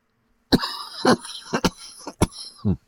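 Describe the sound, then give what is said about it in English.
A person's harsh coughing fit while using a resin concentrate: a rapid, uneven run of about six dry, raspy coughs, some closely paired, each a sharp loud burst, with no speech. “I should probably stop talking until I finish coughing.”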